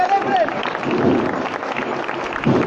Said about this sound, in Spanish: Y esta revira culmina con, con los aplausos.